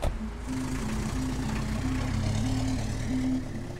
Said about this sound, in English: As the cab drove through the busy evening streets of London, the city appeared unrecognisable to me.